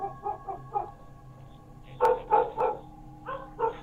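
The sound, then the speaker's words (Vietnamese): A neighbour's dog barking loudly: short sharp barks in two groups, a few quicker ones first, then a louder, more spaced run, over a steady low hum. “Chợt có tiếng nhà hàng xóm, chó nó sủa lên inh ỏi, làm cho bác gái mới choàng tỉnh ngồi dậy.”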